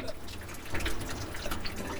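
A rainstick gives a faint, continuous rattling trickle like falling water, with soft, scattered patters throughout.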